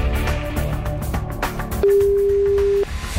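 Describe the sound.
Ringback tone while a phone call is placed to a prize-draw entrant: a single steady, mid-pitched ring about a second long, heard over a dense, loud background sound.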